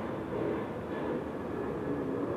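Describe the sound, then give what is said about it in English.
Aircraft flying over from Ontario International Airport, passing above senior citizen apartments: a steady, continuous low roar that holds an even loudness throughout, with no voices. “This is Ontario International Airport, flying over the senior citizen apartments right on the south side of my person. Repeatedly.”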